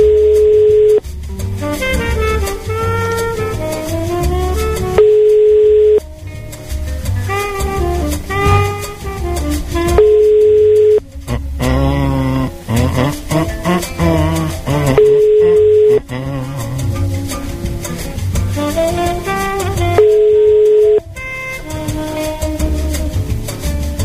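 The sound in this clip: Italian telephone ringback tone heard while placing a call: five steady, single-pitch beeps of about a second each, spaced roughly five seconds apart, sounding over loud continuous background music.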